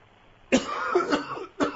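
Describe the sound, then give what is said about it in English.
A person coughs, two harsh, loud bursts, the first a longer raspy fit and the second a brief sharp cough after a short pause. “I got a cough, okay?”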